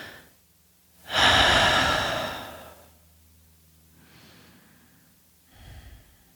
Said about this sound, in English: I feel what it's like when you do that inhale as I just did. I exhaled, then I inhaled